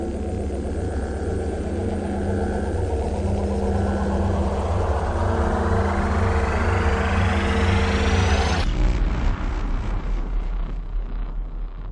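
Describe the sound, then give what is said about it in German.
A time machine lands with a deep rumbling drone under a whine that climbs steadily in pitch for about eight seconds. It then cuts abruptly to a rougher, lower rumble that fades slightly. “Die Zeitmaschine landet im Rauen Haus in Hamburg im Jahre 1839.”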